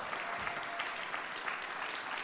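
A church audience applauds to welcome two guests, a steady, even wash of clapping that holds at the same level throughout.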